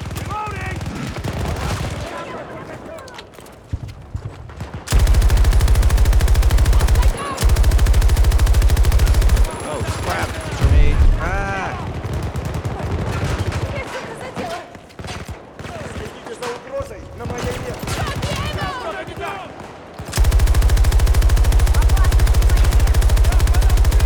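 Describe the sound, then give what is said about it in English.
Loud, heavy automatic gunfire during an attack on an objective, dense sustained volleys broken by a few short gaps, with voices talking at times between and under the shots. “Sound of this gun.”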